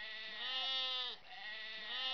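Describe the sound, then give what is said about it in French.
Goats bleat in a loud, continuous, nasal and wavering call that briefly dips midway and then carries on, with no other sounds. “le bêlement des chèvres”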